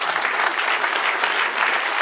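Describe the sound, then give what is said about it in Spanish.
Applause from a church audience: a dense, even patter of many hands clapping at full strength for about two seconds, with no break. “Dale un aplauso, Señor.”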